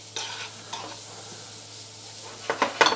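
Meat frying and simmering in olive oil and butter gives a soft, steady sizzle in the pan, broken by a few utensil clicks and stirring scrapes that grow busier toward the end, with no talk.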